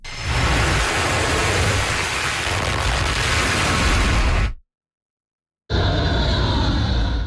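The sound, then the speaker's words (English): Missiles roar as the U.S. military launches them toward Iran. A loud, dense rushing blast holds steady for several seconds, drops to a brief silence, then a second sustained roaring stretch follows. “A U.S. military video shows missiles being launched toward Iran.”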